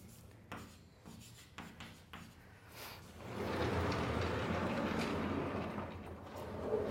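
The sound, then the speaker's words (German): Pen scratching on paper while a diagram is drawn by hand, a matrix-style schema for each column: a few short, separate strokes first, then a longer run of continuous rubbing and scratching. “Da schreibe ich auch so ein Schema hin für jede, und zwar für jede dieser Spalten.”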